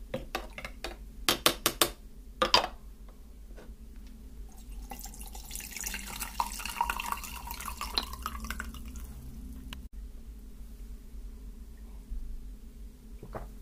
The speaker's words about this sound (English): I think I'm really going to need some green tea now. Let's give this a stir.